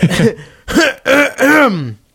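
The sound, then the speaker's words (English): Throat clearing right on a microphone, four loud, harsh voiced bursts in quick succession, the last one longest and falling in pitch. “sorry, I'm like, you know, clearing my throat on the mic.”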